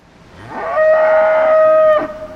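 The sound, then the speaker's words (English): A Holstein cow in a huge barn lets out one long, loud, low moo that holds a steady droning tone before trailing off. “2 hours away, in a huge barn, not too far from the old battlefields of the Somme, 100 pampered Holstein cows are lazily taking their turns at an automatic milking machine.”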